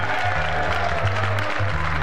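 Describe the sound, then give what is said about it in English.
An audience at a political gathering applauds with dense, continuous clapping at moderate loudness from start to finish. “And by your applause, how many Republicans do we have here today?”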